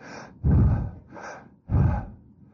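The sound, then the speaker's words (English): A person breathes in sharply, two loud, rasping inhalations about a second long with softer breathing between them, and no words spoken. “what they did, they just breathed in like this.”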